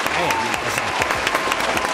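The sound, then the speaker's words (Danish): A recorded applause sound effect played on cue: a full, continuous burst of crowd clapping and cheering with voices talking over it. “Kan du ikke lige smide sådan en klapsalve på? Jo, det kan jeg let. Kan jeg vi ikke lige... Find en rigtig klap.”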